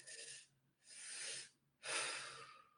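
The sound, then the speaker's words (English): Deep breathing through the mouth: two inhalations, first into the lower belly and then into the chest, followed by a long exhale out through the mouth. The three soft, airy breaths are evenly spaced and faint, with no talking. “you're going to breathe through your mouth into your lower belly so that your belly balloons out. And then you're going to take a second breath into the chest, and then you exhale out through the mouth.”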